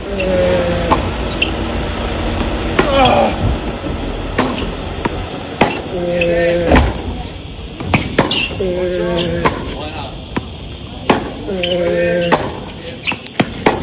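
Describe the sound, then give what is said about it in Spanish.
A tennis ball struck hard with a racket during practice at a country club gives many sharp, crisp impacts in an uneven rally rhythm, with occasional voices between hits. “Así suena la pelota golpeada por Alcaraz.”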